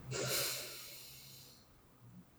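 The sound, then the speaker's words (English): A deep breath, inhaling and exhaling: one long, airy rush of breath that swells quickly, then slowly fades to quiet, soft and close throughout. “Let's start with three deep grounding breaths. So inhale, exhale, inhale,”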